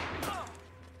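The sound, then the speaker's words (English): A sniper's gunshot fired into the ground by someone's feet: a single sharp crack that decays quickly into a faint tail. “one of Tavarov's snipers fires a shot at the ground by his feet, prompting him to get to his knees again.”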